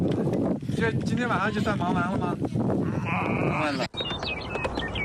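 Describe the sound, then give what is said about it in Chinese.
Sheep bleat as a flock of ewes and lambs is herded home late at night after rain. Several wavering, quavering calls rise over steady wind noise and continuous low rumble. “深夜雨停了，才人也顺利把羊群赶回家里。”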